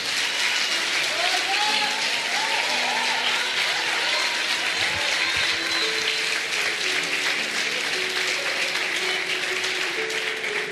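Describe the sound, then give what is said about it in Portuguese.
Church audience applauding God for their pastors during a Portuguese-language service, a dense, even wash of clapping held for the whole stretch, with a voice carrying over it. “Você pode aplaudir o Senhor pela vida dos seus pastores?”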